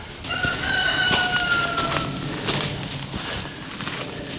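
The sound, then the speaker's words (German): Chickens crow and cluck near a quarry site: a rooster's drawn-out, tonal crow stands out over steady, overlapping clucking and rustling farmyard noise, without any voices. “Ah, stinkt ja widerlich von den Hühnern hier unten rauf.”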